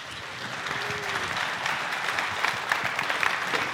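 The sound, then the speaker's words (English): Audience applause welcomes a speaker to a conference talk on encrypted DNS over HTTPS. The clapping is dense and steady, holding at an even, moderately loud level throughout with no voices over it. “Please give him a warm welcome.”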